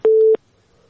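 A single busy-signal beep on a phone line right after a call is cut off, steady in pitch, loud and clean, lasting about a third of a second before near silence.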